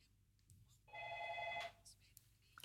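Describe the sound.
A telephone rings once for an incoming call to a radio phone-in. It is a single loud electronic trill lasting under a second, with quiet background before and after.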